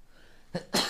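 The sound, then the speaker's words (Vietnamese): A person sneezes on a cold day: a short, soft burst comes first, then a louder, sharp, breathy blast that trails off, heard alone over quiet background. “Có một quả không thể nén được nữa, lại phải hắt xì hơi phát.”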